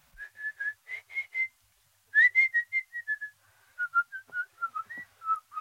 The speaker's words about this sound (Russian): Кто хочет свистать, тот может для этого на конюшню идти.